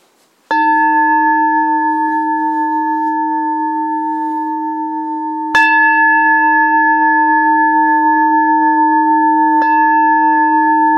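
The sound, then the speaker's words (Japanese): A meditation bell is struck three times, each bright strike blooming into a long, steady ring that sustains until the next strike lands over the fading tone. “鐘を3つ鳴らしますから、鐘の音に集中してください。”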